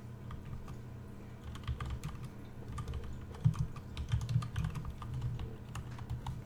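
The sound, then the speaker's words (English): Many irregular clicks of typing on a computer keyboard, steady and moderately loud, with small bursts of faster keystrokes and occasional firmer taps, heard alone without talking. “I used to be able to multitask better. I used to be able to type and talk at the same time. Can't do that anymore.”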